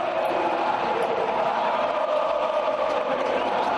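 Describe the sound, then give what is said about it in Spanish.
Betis football fans chant at the Seville derby at the Ramón Sánchez Pizjuán, where about 600 away supporters taunt Sevilla fans. A dense, steady roar of many voices singing together holds at an even loudness throughout. “El jueves todos al cine, cantaban los béticos a los sevillistas refiriéndose al partido de Copa que va a jugar el Betis.”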